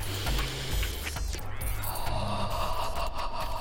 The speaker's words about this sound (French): Tu vas prendre juste de l'air, t'inspirer avec le nez.